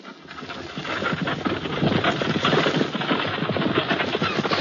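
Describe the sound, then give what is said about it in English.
A team of horses pulls a stagecoach along a broad, smooth trail, their hooves clip-clopping in a quick, steady rhythm. The sound rises from quiet at the start and then holds at an even level. “In the meantime, Rodney Martin drove the stagecoach team.”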